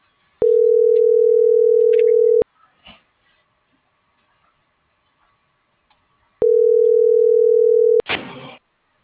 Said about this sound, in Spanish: Estoy marcando.